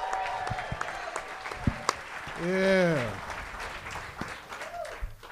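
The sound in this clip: Audience applause at a live comedy show as a comedian is called to the stage, with steady clapping and crowd noise running under a host's voice.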